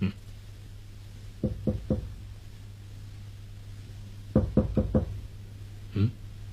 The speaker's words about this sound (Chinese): 敲门。